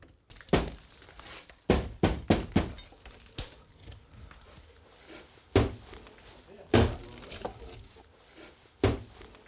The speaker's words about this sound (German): Heute sollen die Fenster ausgebaut werden. Jetzt wird sich zeigen, ob die Mauern halten.